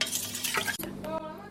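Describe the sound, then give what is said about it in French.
Broth poured into a soup pot along with herbs, salt and pepper: a dense, steady splashing wash with light clattering and a brief clink of utensils against the pot near the end. “Je mets mon bouillon et je mets mes herbes, mon sel, mon poivre.”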